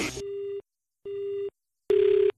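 The ringing tone of an outgoing telephone call sounds as three steady, mid-pitched tone bursts of equal length separated by short silences, the last one louder and buzzier.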